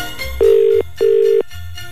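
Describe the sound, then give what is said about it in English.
A telephone ringing tone sounds after a number is dialed: two steady, mid-pitched ring bursts of equal length, separated by a short gap, with no voices. “I hope I've dialed this correctly.”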